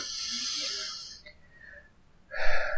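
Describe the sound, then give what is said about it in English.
A deep breath, drawn in through the nose and let out through the mouth during a guided relaxation exercise, gives a soft, airy rush of breath noise with faint steady tones alongside it. “take another deep breath in through your nose and out through your mouth”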